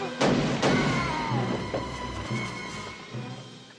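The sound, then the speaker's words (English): Gunfire in an action film shootout during a grenade standoff: two loud, sharp cracks near the start, then a dense rumbling wash of fainter thuds and crashes that slowly fades. “So Riggs is picking off people now.”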